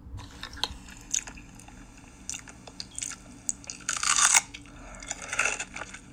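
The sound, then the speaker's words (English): Close-miked crunching and chewing of a pickle in an ASMR recording: many sharp, wet crunches and bites at an irregular pace, with the loudest, densest crunching toward the end. “It's called Pickle ASMR Eating Sounds / Big Crunch / Intense.”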